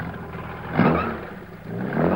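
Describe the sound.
A chauffeur-driven car starts up and pulls away, its engine surging in a brief rev early on, dipping, then building again toward the end.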